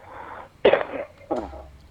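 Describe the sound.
Two harsh, abrupt coughs from a man bothered by dusty dry-season air, the second shorter and quieter than the first, with no talk around them.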